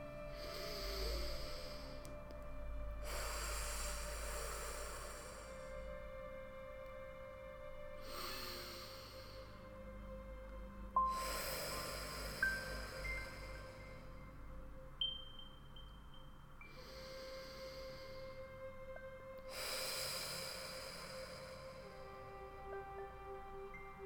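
Slow, deep breaths taken while seated upright, feet on the floor, during a guided meditation: soft, airy inhales and exhales, a few in sequence with calm pauses between them.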